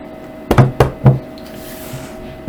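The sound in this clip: Knocking on wood: a quick series of three loud, sharp knocks, followed by a couple of much fainter taps.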